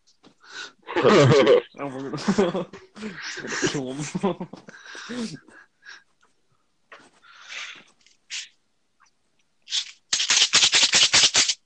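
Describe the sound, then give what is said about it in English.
A played recording ends in a rapid string of sharp gunshot cracks, arriving after several stretches of voices talking. “Who just got shot? Kyle? Oh my god. Kyle? I don't even know what that is. Yeah. The first one sounded like someone was getting popped.”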